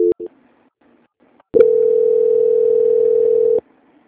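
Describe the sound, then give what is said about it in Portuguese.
Telephone line tone during a call transfer: a couple of very short beeps, a brief silence, then a single steady tone lasting about two seconds before cutting off. “O Santander agradece a sua atenção e espero que aguarde em linha que vou transferir o seu contato para o controle de qualidade. Só um minuto. Transferência.”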